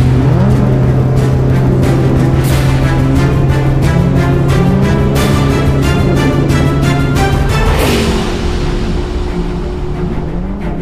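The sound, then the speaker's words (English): A powerful engine roars as a futuristic car barrels out of an alley and speeds off into the night, a loud, steady droning rumble that shifts in tone near the end. “The Batmobile barreled out of the alley and zoomed off into the night.”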